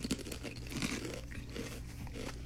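Bites into crunchy Lay's French onion potato chips give a string of quiet, crackling crunches in quick succession.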